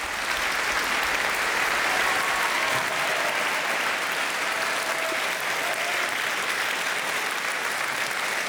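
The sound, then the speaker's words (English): Steady, dense audience applause after the BBC Scottish Symphony Orchestra performs Dvořák's Carnival Overture, a continuous even wash of clapping that holds at a constant level for the whole stretch. “BBC Scottish Symphony Orchestra there to rousing applause at the end there in that buoyant rendition of Dvorak's Carnival Overture.”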